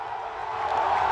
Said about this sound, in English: I mean, look at that crowd going crazy.